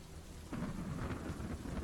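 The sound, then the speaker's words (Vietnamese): Steady rain falling on an afternoon of a funeral on the way to a cemetery, a quiet, even hiss of drops with a soft low rumble beneath, with no voices. “Trên trời cơn mưa không những không chịu ngớt đi,”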